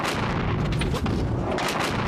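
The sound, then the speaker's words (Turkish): Heavy explosions in the Strait of Hormuz region during an attack, a dense continuous roar of booming, rumbling noise that stays loud throughout without clearly separate blasts. “Mutabakat sonrası bölgede günler sonra yeniden patlama sesleri yükseldi.”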